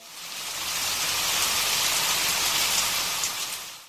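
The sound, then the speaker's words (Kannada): Rain falls steadily in a dense, even hiss of many drops, swelling slightly at first and tapering at the end, with no voices. “ಮಳೆರಾಯನಿಗೆ ತಿಳಿಯಿತು ಏನೋ ಎಂಬಂತೆ ಮಳೆ ಶುರುವಾಗಿಬಿಡಿತು.”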